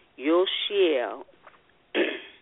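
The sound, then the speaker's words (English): A person clearing their throat: two rough, voiced rasps, then after a short pause a briefer, harsher noisy burst, loud and heard alone without words. “Excuse me, clearing my throat.”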